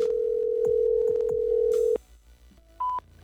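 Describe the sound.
A telephone voicemail line gives a steady, loud dial-like tone for about two seconds that cuts off abruptly, followed by a quiet gap and then a single short, higher-pitched beep.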